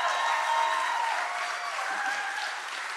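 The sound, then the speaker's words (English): Church audience applauding, a dense, steady wash of many hands clapping that carries on without a break from start to finish. “So let's give them a hand.”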